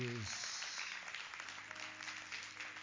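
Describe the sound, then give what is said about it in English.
A church audience claps hands in praise to God after a brief voice at the start. The clapping is faint, steady and scattered, continuing evenly to the end. “Let's give God a hand clap, because”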